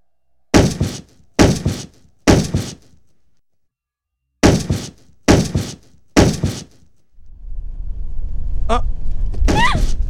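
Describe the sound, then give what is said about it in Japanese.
Heavy thuds of someone banging on a moving car: six loud blows in two sets of three, followed by a steady low rumble that builds and holds to the end. “しばらく走っているうちに車を叩く音はなくなっていた。”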